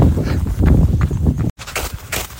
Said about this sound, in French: J'ai l'impression de marcher dans du, dans du polystyrène en fait. La neige est, pas vraiment de la glace, mais c'est plus vraiment de la neige du coup. On s'enfonce, mais pas beaucoup. Et le bruit, ça fait vraiment penser à du polystyrène.